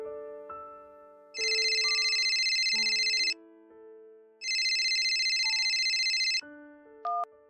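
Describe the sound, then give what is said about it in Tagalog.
A telephone rings in two long electronic bursts, each about two seconds, separated by a pause, over soft background music. “Isang gabi sa hindi ko inaasahan ay may tumawag sa amin”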